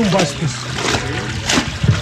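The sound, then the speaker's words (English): Liquid splashes and sloshes as tannery workers soak leather in a mixture of ash, sodium chloride and dung. Continuous watery churning is broken by a few sharper splashes, with voices murmuring underneath. “Sounds of workers soaking the leather in a liquid mixture of ash, sodium chloride, and dung fill the neighborhood.”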